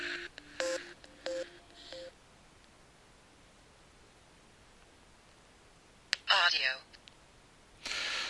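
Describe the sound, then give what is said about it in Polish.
Startup melody from a Milestone audio player after its play button is pressed: a few short, bright electronic tones in quick succession, followed by a stretch of faint hiss. “Milestone odtworzył taką muzyczkę startową, taką melodyjkę. W ten sposób sygnalizuje, że się uruchomił.”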